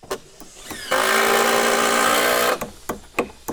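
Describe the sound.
A miter saw and screw drivers at work on new deck boards at a mobile home: one loud, sustained power-tool whine lasting about a second and a half, set among sharp clicks and knocks.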